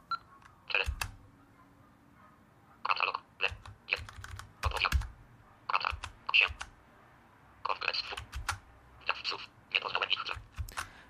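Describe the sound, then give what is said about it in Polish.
Computer keyboard keys, including arrow keys, pressed to navigate a page, clicking in quick irregular bursts separated by short pauses. The clicks are crisp but fairly quiet over a low background hum. “idę na początek, żeby się przenieść do końca naciskam te y, lewy, y, lewy, prawy i K.”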